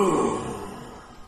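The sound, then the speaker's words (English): A voice imitates a warrior's deep grunt of acknowledging an injury rather than pain. It is a single low, throaty groan that starts loudest and trails off over about a second. “There's a deep groan of... Not really pain, it must be said. More a warrior's grunt of acknowledgement of injury.”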